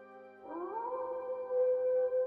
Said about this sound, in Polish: Wysłyszycie wycie wilka.